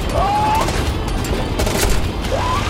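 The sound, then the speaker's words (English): Rapid gunfire from M16 rifles aimed at a fast-moving target, a dense, loud, continuous wash of overlapping shots with sharper cracks standing out near the end. “I hit it, but the M16s aren't doing anything.”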